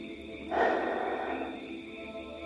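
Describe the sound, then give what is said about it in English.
One deep breath, a soft airy inhale that swells quickly and then tapers slowly away, heard alone over a faint low hum. “join me, if you would like to, in taking 3 deep breaths”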